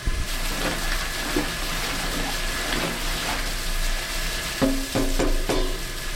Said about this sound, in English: So this is our very authentic Belgian beer mash paddle, custom made by a friend of a friend, and I'm going to stir the mash.